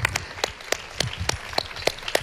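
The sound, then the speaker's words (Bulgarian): Applause from the audience at a music awards ceremony: a dense wash of clapping with sharp, evenly paced claps standing out in a steady rhythm. “Силни аплодисменти! Силни аплодисменти за Борис Христов и Бояна Карпатова!”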